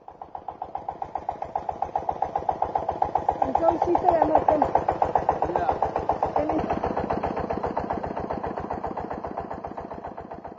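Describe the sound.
An engine set up in place of an irrigation pump chugs with a rapid, even run of thumps that holds steady for the whole span, while a voice speaks over it midway.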